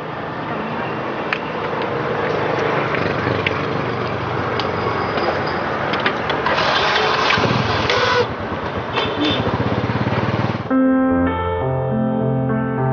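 A motorbike taxi engine runs with a steady, rough, noisy drone for about ten seconds, then gives way to music.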